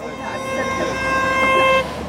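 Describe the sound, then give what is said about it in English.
A car horn honks in celebration as the car pulls up a hill: one long, sustained toot with steady harmonic tones that cuts off abruptly over rumbling background noise. “a car pulls up the hill, honking in celebration.”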